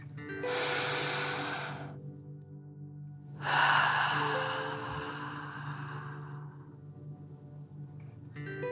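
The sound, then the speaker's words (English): Deep breathing during a breathing exercise, in through the nose and out through the mouth: two long, airy, breathy rushes, the second stronger and slowly trailing away, over a low steady hum. “Breathing in through your nose and breathing fire out of your mouth. Again, deep breath in and out.”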